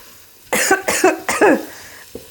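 Coughing from cumin spice fumes while cooking: a quick fit of several harsh, throaty coughs in close succession, followed by a faint single cough after a short pause.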